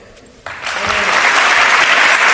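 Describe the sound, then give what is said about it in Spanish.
Applause rises from a small, private farewell gathering for a departing football player. After a brief quiet opening, loud, dense clapping starts suddenly and holds steady to the end. “Karim Benzema, que se despedía con este aplauso de los suyos en un acto restringido, privado, pequeño”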